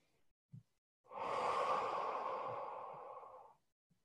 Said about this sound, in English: Take a nice deep breath in and exhale. And another one.